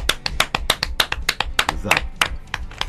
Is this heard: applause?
yes

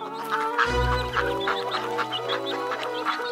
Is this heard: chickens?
yes

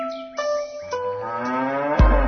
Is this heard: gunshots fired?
no

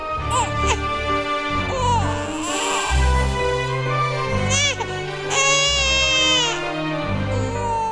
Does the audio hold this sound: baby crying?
yes

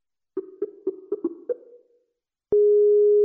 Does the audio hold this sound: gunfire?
no

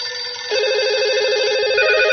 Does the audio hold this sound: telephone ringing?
yes

